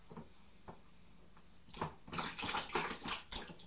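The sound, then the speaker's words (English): Water splashing in a bathtub: about the first 1.7 seconds are near silent with a couple of faint ticks, then a run of many soft, irregular splashes and sloshes. “Are they splashing in the water? Are they splashing in the water? Just be gentle.”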